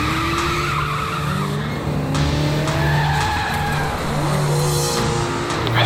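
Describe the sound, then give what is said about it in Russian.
Tires of a black Toyota car squeal and skid repeatedly as it speeds during a police pursuit, over a continuous loud engine roar. The wavering screeches rise and fall in pitch throughout, with no talk. “Водитель черной Тойоты, примите вправо. Следую черную иномарку. Без госномеров. Слишком быстро едет, слишком быстро едет.”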